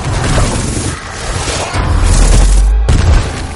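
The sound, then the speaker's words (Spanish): Heavy crashes and booms as a creature smashes through tunnel walls in a film, a dense, loud rumbling barrage with a deep, surging low impact toward the end. “La criatura ataca de nuevo destrozando las paredes del túnel.”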